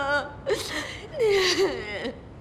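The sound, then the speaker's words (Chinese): A person cries in a few faint, wavering sobs and whimpers, with breathy catches and gasps between the wails. “你怎么了？你怎么哭了？”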